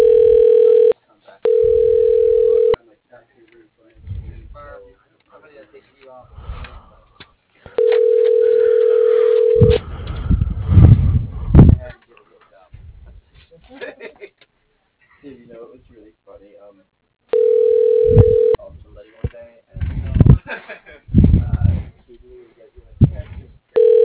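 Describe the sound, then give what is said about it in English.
Ringback tone on an unanswered call to a CEO's new number: a few long, steady electronic tone bursts at irregular gaps, with a voice talking between them. “Got a new number for the CEO, but he's not answering. And it's not going to a voicemail.”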